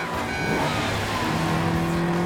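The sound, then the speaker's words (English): A Ferrari sports car races along country roads, its engine a loud, continuous droning roar that holds steady throughout. “The Ferrari races along the country roads, leaving the castle behind, passes a windmill and comes up behind a truck transporting bales of hay.”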